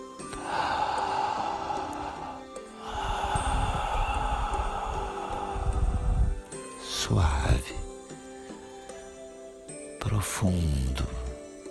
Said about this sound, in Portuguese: Inala e exala, inspira e expira por la boca.